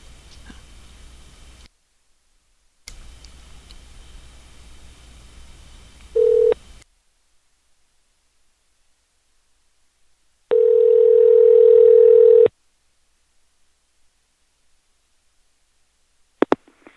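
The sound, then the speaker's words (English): Telephone line sounds during a call being dialed: stretches of hiss, a brief steady tone, then a long, loud, steady ringing tone, ending with a couple of sharp clicks and no voices. “I'm gonna call these people back one more time because they're jerks, and I wanna make sure their phone, like, possibly wakes them up three times.”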